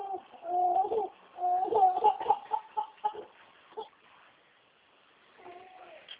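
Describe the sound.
A baby crying in several short, wavering wails with a tonal, whimpering quality, falling quiet for a moment before one last brief cry near the end.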